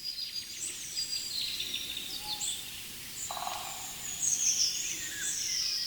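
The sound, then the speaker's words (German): Golden oriole song: faint, fluted whistled phrases that come and go over a steady low rumble of background noise, with a few higher chirps scattered through. “da ist der neue Buchfink natürlich jetzt erstmal kurz still, er hält den Schnabel, weil der Pirol so wunderbar heute aussingt”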